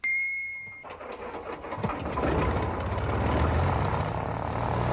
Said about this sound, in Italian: L'aeroplano decollò dal tetto